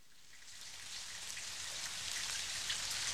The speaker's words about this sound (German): Was stehst du denn da im Regen rum?